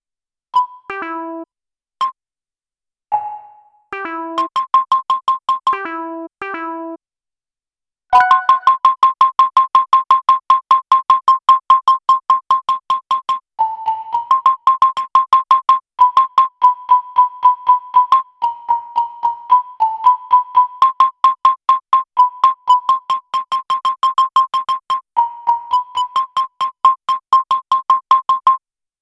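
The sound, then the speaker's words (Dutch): Electronic beeps come from an obstacle-detection navigation device. A few sparse chirps and short stepped tone groups are followed by a long, fast run of high, clipped beeps. The beeps hold a mostly steady pitch with brief dips lower and vary slightly in loudness. “Ik laat jullie eerst een stukje horen van de geluidjes die het toestel voortbrengt.”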